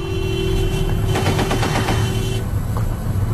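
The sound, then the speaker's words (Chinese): Rapid gunfire from a British armoured vehicle convoy forms a dense, fast-pulsing burst over a constant low rumble, then cuts off, leaving only the rumble. “什么什么？英国人的装甲车队也开火了？”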